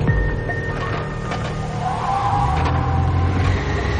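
A limousine pulls up and parks on a city square: a steady low engine rumble with a mechanical whir, continuous and fairly loud throughout, with no clear stop.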